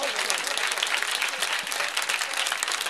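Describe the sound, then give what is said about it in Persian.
Audience clapping along during a recited religious song, a steady, dense patter of many hands without a break. “حالا اونی که خوب دست زد برای اون دوتا بندی که من خوندم علال حساب یه صلوات بلند کرد.”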